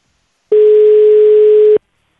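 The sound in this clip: A telephone line tone sounds as a radio show rings a listener of the day: one steady, mid-pitched electronic tone lasting just over a second, loud and alone against silence.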